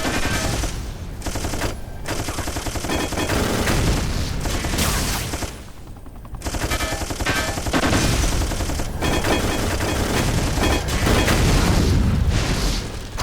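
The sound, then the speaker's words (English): Machine gun fire in a video game: loud, rapid, continuous bursts of gunfire mixed with heavy booms, with a brief dip around the middle before the barrage resumes at full strength. “Machine gun.”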